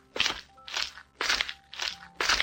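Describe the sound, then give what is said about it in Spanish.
A sheep crunches a carrot in five distinct, evenly spaced bites. Each is a loud, crisp crunch with a short pause between, and no voices are heard. “La ovejita se zampó la zanahoria tan rápido que le entró hipo.”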